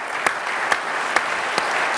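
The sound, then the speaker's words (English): A business conference audience applauds. The dense clapping holds steady while a few sharper, louder claps punch through at an even beat on top. “All right, let's give them a round of applause, folks.”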